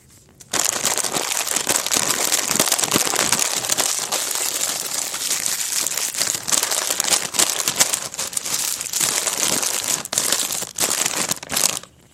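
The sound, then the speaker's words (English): Crinkling of a nacho cheese Doritos bag and granola bar wrappers: dense, continuous crackling and rustling that runs loud and steady for nearly the whole clip, with no voices. “That's the sound of a bag of Doritos, nacho cheese Doritos, and granola bars”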